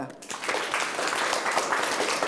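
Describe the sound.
Applause and clapping for a correct answer in a students' quiz, a dense, steady patter of many hands that keeps an even level throughout.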